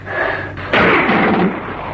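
A single gunshot in a radio drama: a sudden loud blast with a harsh, noisy tail that fades over less than a second, set against a low background hiss.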